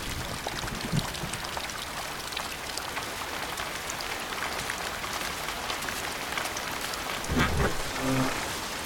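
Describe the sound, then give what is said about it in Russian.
Rain falls outside in a steady, dense hiss of drops that stays constant throughout, with no clear talking. “На улице идет дождь.”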